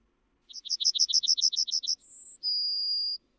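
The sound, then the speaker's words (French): Yellowhammer song: a fast run of many short, bright, high repeated notes followed by two drawn-out final notes, the last one longer and steady, sung alone over faint low background rumble. “Et ce que vous entendez maintenant, c'est le chant d'un bruant jaune et il se fait de plus en plus rare à nos oreilles.”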